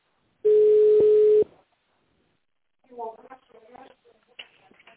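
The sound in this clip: A telephone line gives a single steady tone lasting about a second. After a short gap, indistinct voices talk quietly.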